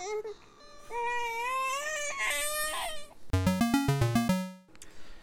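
A child cries in wavering, whiny wails for about three seconds, then a short electronic video-game jingle of stepped, pulsing tones plays.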